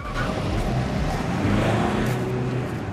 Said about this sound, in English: The car drives on.